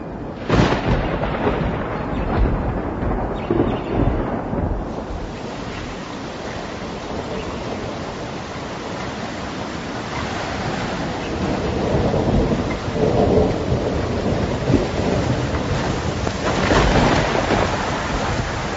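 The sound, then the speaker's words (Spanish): A night thunderstorm with heavy rain hissing steadily and loud rolling thunder that swells and eases through the stretch. “Una noche antes del invierno, llega una tormenta que parecía el resfrío del infierno, donde los árboles se vuelan, las casas y las gentes parecen de papel”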